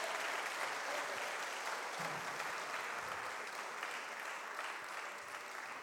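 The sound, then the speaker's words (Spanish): A church audience applauds loudly, a dense, sustained wash of clapping that holds at an even, high level throughout with no clear pauses. “Denle un aplauso fuerte al Señor por ello”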